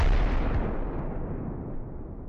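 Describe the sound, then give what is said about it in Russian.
A distant explosion echoes through a fortress as one broad, rumbling blast that starts loud and slowly decays over about two seconds. “Эхо далекого взрыва промчалось по закоулкам крепости Соболева, пока, наконец, не достигло ушей хозяина”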